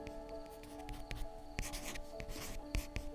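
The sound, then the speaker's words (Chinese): A pen nib scratching across exam paper during a test, quiet irregular strokes and taps with a few sharper, louder scrapes scattered throughout. “翻动试卷的声音，笔尖划过纸张的声音，”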